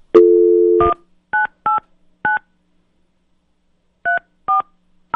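Telephone dialing: a steady dial tone cut off by rapid keypad touch-tone beeps. Short, sharp beeps come in a quick cluster, a pause follows, then more beeps, all clean and loud with no voices.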